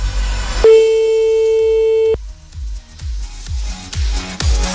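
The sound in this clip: Single long, steady ringback tone of a telephone ringing on an outgoing call, loud and even for about a second and a half, then cut off as rhythmic low thumping music pulses underneath.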